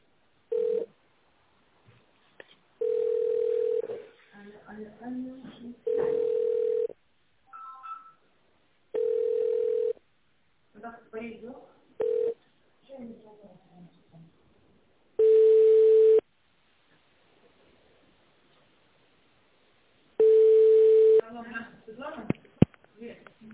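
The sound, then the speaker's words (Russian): Telephone line tones while a call is being transferred: several long beeps at one steady pitch with silent gaps, interspersed with voices talking over the line. “Ну, я сейчас на директора переведу, подождите.”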